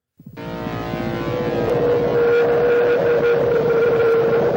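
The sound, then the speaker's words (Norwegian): A howling, droning tone from the Airwolf TV theme music swells up quickly from silence, then holds a sustained, steady pitch over a dense, rushing wash of sound. “Kjør Airwolf-temaet, eh, for den er jo morsom. den også. Den eh, tar vi litt eh, lydbilde på den òg, så får vi den med.”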